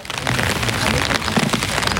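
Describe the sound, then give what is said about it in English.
Steady rain falling in a large cemetery, a dense, continuous patter of drops with no pauses. “It's raining”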